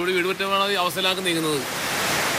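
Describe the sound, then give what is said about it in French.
Heavy pouring rain falls in a flood-hit village near Cochin, making a dense, steady hiss. A voice speaks over the first part, and then the downpour continues alone. “Nous le rencontrons sous une pluie battante.”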